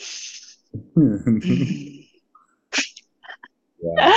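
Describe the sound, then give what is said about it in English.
A deep breath drawn in as a short breathy hiss, followed by voiced, sighing vocal sounds and further brief breathy noises. “And so anyway, let me take a deep breath.”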